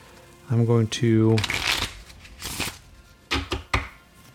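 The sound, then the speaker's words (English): Playing cards are shuffled and drawn for a Rifts tabletop game, with a crisp, rapid riffling and flicking. A person speaks over part of it. “I'm going to draw. And here's what I'm going to say. I'm going to draw 5 days worth of cards, so one card per day.”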